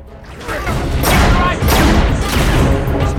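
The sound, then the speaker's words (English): Gunfire from a captured gun as a soldier is blasted, with loud, heavy bursts in a few surges over a dense rumbling background. “Riddick stabs the captain, takes his gun, blasts a soldier, eyeballs the glowering Varko, then advances on another soldier.”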